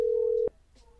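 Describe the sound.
A steady telephone tone while a call is being dialed, one unbroken mid-pitched note holding for about half a second before cutting off abruptly, leaving faint quiet.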